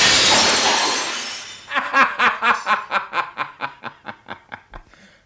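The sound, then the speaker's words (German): A chandelier crashes to the floor and shatters: a loud, hissing crash of breaking glass, then many bright tinkling clinks of falling shards that grow gradually quieter and sparser. “Er traf aber den Kronleuchter, der mit ohrenbetäubendem Krach auf den Boden stürzte.”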